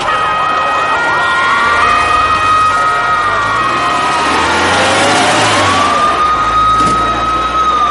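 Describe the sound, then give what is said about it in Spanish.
Ambulance and police sirens wail continuously in a street by a church, their loud rising and falling tones overlapping above a low rumble of engines. “La calle de la iglesia se llena de ambulancias, coches de policía y periodistas.”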